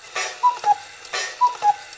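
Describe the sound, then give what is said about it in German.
Ticking of mechanical clocks in a countess's household. A steady tick-tock repeats about once a second, each beat a small cluster of crisp clicks with a faint metallic ring, alone without talk. “So liefen die meisten Uhren einwandfrei.”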